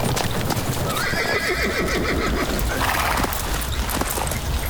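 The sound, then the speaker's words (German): Horses' hooves clop steadily in a forest clearing as the animals are halted to rest, with a horse whinnying partway through; the clopping stays loud and continuous throughout with no talking. “Setzt ab und lasst die Pferde ausruhen.”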